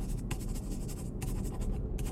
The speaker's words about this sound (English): Do you have pen and paper? I have a notebook. Tear out 2 pages. Done. On one of them, write your telephone number and give it to me.